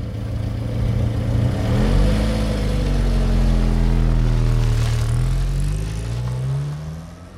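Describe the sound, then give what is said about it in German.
A car engine starts up and the car speeds away, its loud, steady engine roar climbing in pitch near the end as it accelerates; no voices. “wie der zweite Mann, der Fahrer, zurückkommt, in den Wagen springt, startet und davonbraust.”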